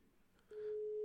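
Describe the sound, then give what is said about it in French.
Telephone ringing tone of an outgoing live call: a steady, mid-pitched electronic tone sets in partway through and holds unbroken to the end, with no voices. “on va tenter un appel en direct à quelqu'un qui devait être là mais qui n'a pas pu être là”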